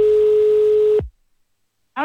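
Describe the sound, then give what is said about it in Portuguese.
Telephone ringback tone as a call connects: one steady mid-pitched tone for about a second, then silence, with a voice starting at the very end. “Escuta, tá chamando.”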